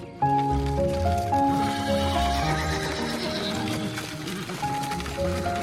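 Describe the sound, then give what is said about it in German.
A horse whinnies and its hooves clip-clop as it draws a wooden cart along a bumpy path in southern France on a summer day in 1895. The sound is sustained and fairly loud throughout. “Ein Pferdewagen rumpelt den holprigen Weg entlang.”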